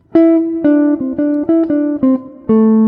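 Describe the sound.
A short melody built from major pentatonic notes over a C major 7, about eight clear pitched notes in a lilting, uneven rhythm with ringing harmonics, played alone.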